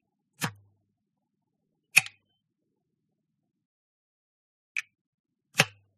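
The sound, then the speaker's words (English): A small USB drive is pushed into a computer port, giving four sharp, separate clicks spread over several seconds of silence, the second and last slightly fuller than the others. “this tiny device holds backup of critical documents, lesson plans, photos, and videos. And it's the small USB that I plug into my port of my computer.”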